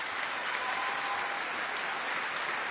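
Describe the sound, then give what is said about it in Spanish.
An audience at an official ceremony applauds the electoral authorities: a brief burst of dense, even clapping that holds at a steady level from start to end. “así que también vaya un aplauso para las autoridades electorales”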